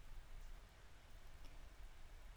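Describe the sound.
Sudden rain falling, a faint, steady hiss of drops without pauses or distinct individual impacts.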